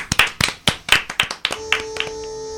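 A quick, uneven run of sharp hand claps, roughly eight loud ones in the first second and a half. Fainter claps follow as a steady electronic tone sets in and holds to the end.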